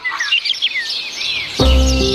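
Birds chirp and tweet in quick, bright, high calls through the first part. Then a steady, low tonal sound with stacked harmonics takes over as the chirping drops away.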